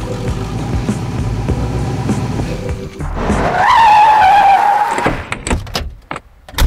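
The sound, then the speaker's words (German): Tires squeal as a Cadillac car skids: a rough rumbling noise gives way to a loud, sustained high-pitched screech lasting about two seconds, followed by a few sharp knocks. “Hier ist mein Wagen. Ein Cadillac.”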